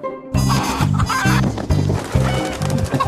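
Chickens from a backyard hatching flock clucking loudly: a steady run of low, rhythmic clucks repeating several times, with sharper, busier calls layered over them and no talk.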